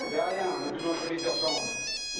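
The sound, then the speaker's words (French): A mobile phone ringtone sounds during a police deposition scene. It is a steady, bright electronic chime that keeps going throughout, with voices over it. “Oh, excusez-moi, mon portable.”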